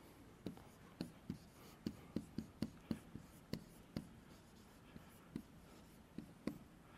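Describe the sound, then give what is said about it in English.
Quick handwriting, with many rapid, faint scratching pen strokes in an uneven but brisk rhythm that runs steadily throughout. “All right, I'm writing fast and it's getting ugly.”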